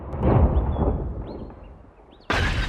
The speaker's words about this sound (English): drops his weapon, which hits the ground and fires at a petrol pump. The whole garage goes up in flames.